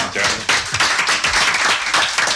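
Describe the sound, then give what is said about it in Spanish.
Audience applause for a guest on a Spanish-language show, an uneven, fairly sparse clatter of hand claps with distinct individual slaps and small swells rather than a smooth roar. “Así que gracias, José Luis. Se merece un aplauso.”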